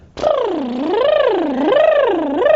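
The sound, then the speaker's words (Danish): A singer demonstrates a tremolo vocal warm-up exercise: a loud, sustained voiced tone whose pitch swoops smoothly up and down in slow waves, about three cycles, with no other sound. “Nummer et øvelse, som jeg elsker, den hedder en tremolo. Og den lyder sådan her.”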